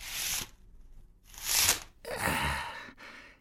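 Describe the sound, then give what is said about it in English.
A curtain is drawn across the middle of a confessional, giving three broad rustling swishes of fabric, the later ones longer and louder. “Just let me draw the curtain across the middle.”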